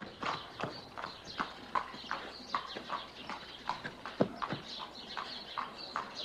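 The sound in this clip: Horse hooves clip-clop at a steady walking pace as a rider on horseback heads through town toward the church in the main square. The crisp, regular hoof strikes repeat many times and stand out alone.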